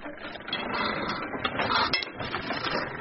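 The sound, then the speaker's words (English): A nearly century-old, 360-kilogram foot-powered platen letterpress with no motor clatters continuously, a busy mechanical rattle of wood and metal with a sharper knock near the middle. “The company uses a 360-kilogram Platon letterpress machine to make its creative designs.”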